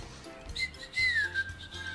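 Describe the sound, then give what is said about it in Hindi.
A person whistles a short, wavering high tune that glides downward in the middle, faint and alone over a low steady hum. “और सीटी बजाना बंद करो।”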